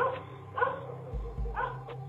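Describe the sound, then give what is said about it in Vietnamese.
Dogs barking in a neighbourhood: a few sharp, spaced barks over a steady low rumble. “Bất giác toàn bộ chó ở trong cái xóm này tự nhiên chảo mỏ ra ngoài mà sủa lên inh ỏi.”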